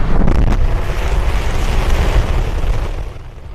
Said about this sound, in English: SpaceX celebrating after the launch of its so-called Starship rocket.